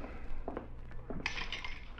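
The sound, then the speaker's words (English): Glassware clinking while a drink is mixed: light clatter gives way to a few bright, ringing clinks, faint and without voices. “How about mixing us a drink? Sure.”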